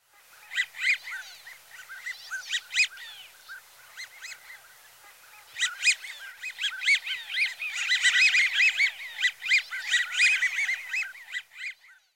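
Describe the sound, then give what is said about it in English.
American wigeon calls: many breathy, wheezy whistles in short repeated phrases, some loud and others faint, overlapping and continuing throughout without any talk. “American Widgeon.”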